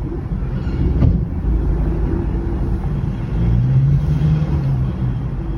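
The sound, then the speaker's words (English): A white minibus pulling up and driving off outside a large wooden gate on a chilly January evening, a steady low engine rumble and road noise that swells slightly in the second half. “an unmarked white minibus pulls up outside a large wooden gate. A group of young children run out, jump inside the vehicle, and it drives off.”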